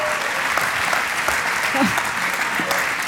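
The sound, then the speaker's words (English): Audience applauding in a standing ovation at a church service, steady dense clapping that stays loud throughout, with a voice briefly heard over it. “A standing ovation over there.”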